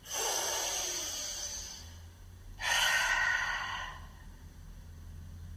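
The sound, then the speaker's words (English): Open-mouthed exhales during a guided yoga breathing practice: two long, airy breaths, each lasting well over a second with a short pause between, soft and breathy with no talk over them. “Join your palms, open mouth, exhale down. Let's do it again. One last breath.”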